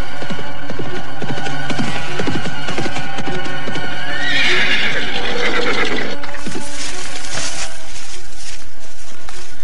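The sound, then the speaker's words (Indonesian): A galloping horse approaches from afar, its hoofbeats a loud, continuous rhythmic drumming, with a horse's whinny rising out of it midway. “dari kejauhan terdengar derap kuda mendekat.”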